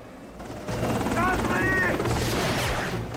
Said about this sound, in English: a black helicopter is taking off, and an SUV drives away.